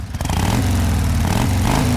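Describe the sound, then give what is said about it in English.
A motorcycle engine drones loudly and continuously as the rider performs a figure eight, its tone swelling and dipping slightly in pitch with no voices. “Surely the folks around here don't call you the motorcycle queen of Miami for nothing. Show me some tricks. Do a figure eight.”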